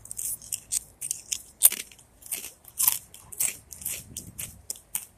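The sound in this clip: Crunching on tamari rice crackers gives many crisp, brittle bites in a steady, uneven rhythm, fairly loud and alone with no talk.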